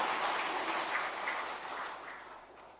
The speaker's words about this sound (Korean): 권능을 주신 주 예수 그리스도께 영광의 박수 올려드리겠습니다.